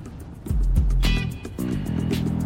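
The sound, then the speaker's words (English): A Ford Fusion car driving, heard as a low engine rumble that swells and surges partway through, then settles into a steady drone with no talk. “They done swapped out the Tahoe for this pitiful fucking Ford Fusion?”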